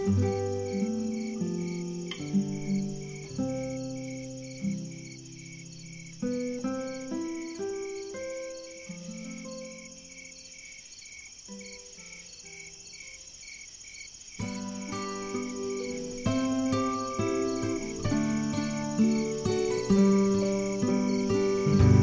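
Crickets chirp at night with steady, high, rapidly pulsing calls that carry through the whole stretch beneath a soft, gentle lullaby melody of low plucked notes.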